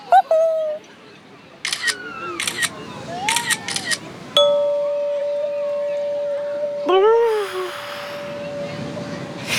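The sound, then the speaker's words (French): A single sharp camera shutter click partway through, surrounded by whistle-like tones and voice sounds before and after. “Ne bouge pas, Toudou. Je vais te prendre en photo.”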